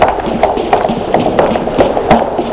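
Running footsteps of a frightened man fleeing through a city, heard as a steady, fairly loud rhythm of quick thudding steps.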